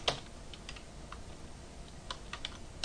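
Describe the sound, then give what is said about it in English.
Soft, quick keystrokes on a computer keyboard as a password is typed into an iTunes sign-in field. The clicks are irregular and faint over a steady background hiss. “Password field, so I'll just type that in.”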